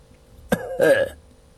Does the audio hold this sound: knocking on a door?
no